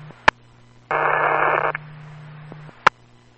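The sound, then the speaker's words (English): Unreadable static on a radio transmission bursts out as a harsh hiss for under a second over a steady low hum, with sharp clicks before and after it. “Last unit, unreadable static.”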